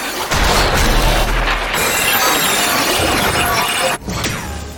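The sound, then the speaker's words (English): Loud explosions as a Reaper destroys things in a video game: a continuous crashing roar with a deep rumble and shattering debris, broken by one brief drop near the end before the din resumes. “Alright, we're looking at footage of a Reaper blowing up stuff.”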